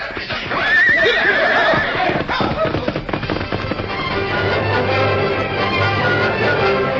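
Horses whinny loudly as riders mount up and ride off, a high wavering neigh early on, then a dense, steady clatter of hooves that carries on to the end.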